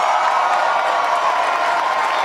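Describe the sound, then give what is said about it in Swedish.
Roaring cheers and applause from a crowd after a Left Party leader's speech on Swedish election night, a loud, continuous wash of clapping and shouting with no break. “Vänsterpartiets Nooshi Dadgostar möttes av vrålande jubel i sitt tal efter ett halvdåligt rim.”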